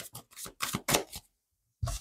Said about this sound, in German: Ich halte das für richtig, aber schauen wir mal die Karten.